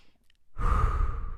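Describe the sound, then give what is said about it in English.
One long, deep, airy breath from a person, loud and noisy, after a near-silent moment. No talking is heard. “So let's all take a deep breath.”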